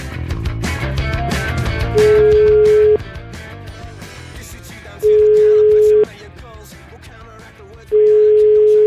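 Telephone line tone as a call is placed: three steady, flat beeps, each lasting about a second and spaced a few seconds apart, sounding loud over a continuous bed of music.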